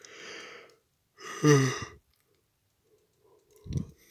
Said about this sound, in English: there I go. Yawning again.